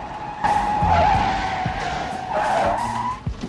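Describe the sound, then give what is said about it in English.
Tires of police cars squeal as they skid through a turn: a sustained high screech over low engine rumble, swelling again for a second squeal near the end. “another squad car turns into the road and follows after the first.”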